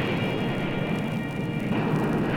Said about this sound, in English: July 24th, 1950. We launched this bundle as our first major two-stage missile to go from the sands of Cape Canaveral.